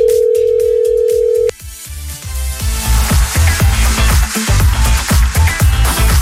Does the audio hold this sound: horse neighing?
no